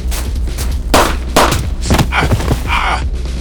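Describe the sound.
Gunshots during a tense armed standoff: a few sharp, loud bangs in quick succession, each with a short ragged tail, over a steady low hum.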